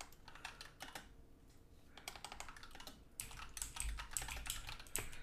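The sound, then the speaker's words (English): Typing on a computer keyboard: many soft, quick keystroke clicks in irregular bursts, faint and alone, growing somewhat busier toward the end. “I love how I typed it in and it came.”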